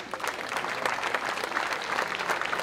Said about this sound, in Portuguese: um forte aplauso também para esta equipa de som e luz que está aqui entre nós